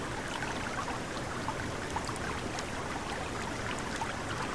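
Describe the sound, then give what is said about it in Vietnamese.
A swift, strong stream current rushing steadily, a dense even wash of water noise with no breaks, faint throughout. “Nước chảy xiết và mạnh thế này, con không thể xuống mò lên được.”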